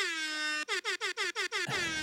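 A loud air horn sound effect blares one long, brassy blast, then breaks into a quick run of short, stuttering honks before cutting off.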